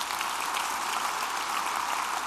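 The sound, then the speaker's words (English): An audience gives a steady round of applause celebrating a university's top ranking as an employer in Kansas. The clapping is dense and even, with no voices heard. “We were ranked number three for all employees in the state of Kansas. Foam finger. Number one for universities. Big round of applause for that.”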